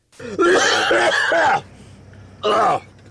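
Raspy, voiced coughing and sputtering from someone who has just inhaled a fly on Route 66 in a car with the windows and sunroof open. A long, strained burst is followed, after a short pause, by a briefer one.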